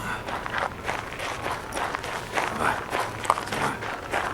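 Footsteps walk toward a church portal on a freezing winter day just after New Year. The steps are steady, soft and fairly faint, with a low background hiss.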